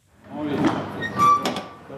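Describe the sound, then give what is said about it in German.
A truck driver opens the door to the cargo hold, producing dull mechanical clunks and a sliding scrape over about two seconds. “Ein Lkw-Fahrer öffnet die Tür zum Laderaum.”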